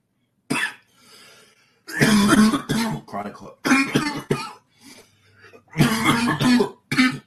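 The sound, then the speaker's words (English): A chronic cough, not from COVID, comes in several harsh bursts, some short and sharp, others drawn out and rasping with throat clearing, separated by brief quiet gaps. “chronic cough, not COVID.”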